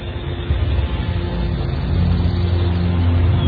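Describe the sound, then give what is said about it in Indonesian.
A car engine hums in a steady, low drone as the car drives off after a punctured tyre has been patched. The drone grows slightly louder partway through, with no voices. “Setelah selesai menambal ban mobilku ini, sekarang kami meneruskan perjalanan menuju villa.”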